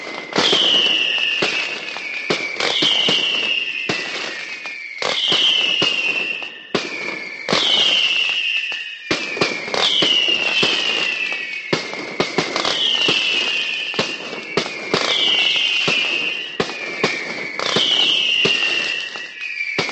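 Fireworks at a festival tronaera: a dense, continuous barrage of loud bangs and crackles lasting throughout, with repeated high whistling streaks rising over the rapid explosions.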